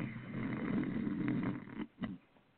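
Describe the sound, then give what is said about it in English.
A voice imitates a dog snoring: a long, faint, rasping snore that breaks off into a short snort. “and she's just down there snoring away”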